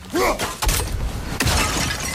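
A plate falls and shatters in a loud, sharp crash of breaking pieces. Several further crunchy bursts of debris follow over about two seconds.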